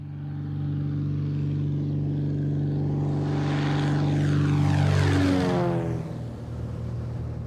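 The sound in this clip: A sheriff's propeller airplane drones steadily during an aerial search. Its loud engine grows stronger toward the middle, then its pitch drops as it passes.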